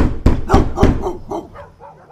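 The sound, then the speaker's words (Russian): Dogs bark in a yard and nearby: a few loud, sharp barks in quick succession, then fainter, softer barking trailing off. “Собака во дворе тут же залилась, у соседей отозвалась баском другая, потом в отдалении еще одна, но уже лениво, буф-буф, мол, не балуй, и опять тишина.”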